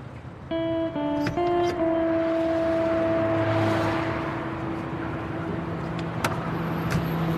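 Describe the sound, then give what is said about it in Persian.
A police car pulls up and stops outside a cafe, its engine holding a steady humming drone throughout, with a few brief sharp clicks over it. “بیرون کافه ماشین پلیس توقف کرده”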